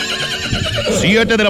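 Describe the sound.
A white mare neighs in a loud, wavering whinny. Its pitch trembles up and down, then it ends in a rough, shuddering burst.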